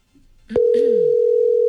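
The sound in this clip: A telephone line emits a loud, steady, unbroken tone while a call goes to an answering service. It begins abruptly after a brief stretch of faint noise and holds to the end.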